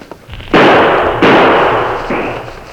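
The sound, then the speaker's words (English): Gunshots fired toward boulders ahead, three sharp loud blasts spaced about a second apart, each followed by a long, slowly fading rumbling tail, with no voices. “Fire a shot or two in that direction to cover me”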